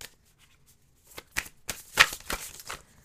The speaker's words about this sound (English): Okay, we got some self cards for you guys.